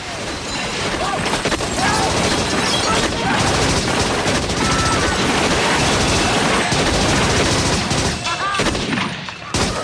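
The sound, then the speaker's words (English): Sustained gunfire as a gang sprays a building with bullets: dense, overlapping automatic bursts that stay loud and continuous throughout with no clear gaps. “The gang spray the building with bullets.”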